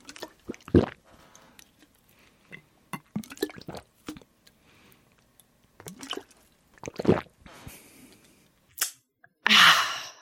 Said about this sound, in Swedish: Och det som händer då är att det kommer börja bubbla lite när du dricker och det låter typ så här.